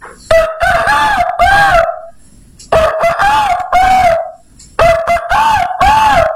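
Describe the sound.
A rooster crows three times, each long, loud call rising and falling in pitch, separated by short pauses, with no other sounds around it.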